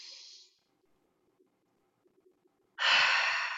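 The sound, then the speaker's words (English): Deep breathing during a guided gratitude breathing exercise: a short breathy rush of air, a quiet pause, then a longer and louder hiss of breath drawn in. “Breathe in.”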